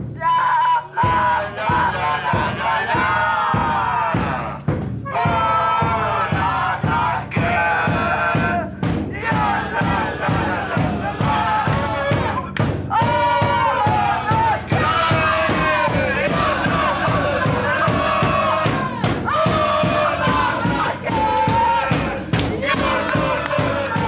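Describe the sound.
Players and supporters of an amateur football club singing a song together, a loud crowd chant with a steady rhythmic pulse, shouted voices and yells throughout.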